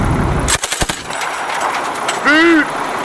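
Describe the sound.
C6 and C9 machine guns firing: a heavy rumble gives way to a rapid burst of several sharp, loud shots, followed later by a short tonal voice sound.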